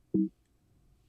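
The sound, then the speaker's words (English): A computer gives a single short, low-pitched beep: one steady tone lasting a fraction of a second, followed by quiet. “That was the sound of a computer.”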